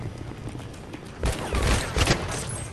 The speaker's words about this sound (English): Look, my gun! Did you see that? It goes click, click. It like shoots twice.